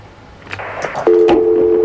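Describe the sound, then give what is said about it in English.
A steady telephone line tone from an incoming call cuts in about halfway through and holds at an even pitch to the end, preceded by a few faint clicks. “Hey, we've got a phone call.”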